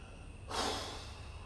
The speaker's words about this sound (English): And when I pray, I literally breathe so deep.